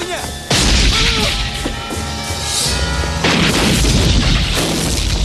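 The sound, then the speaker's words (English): Two loud, booming blasts of gunfire from a police officer shooting at a man who emerges outside. The first comes just after the start and the second near the midpoint, both over a dense, sustained background. “Outside, an officer shoots at Vagran as he emerges. Vagran falls.”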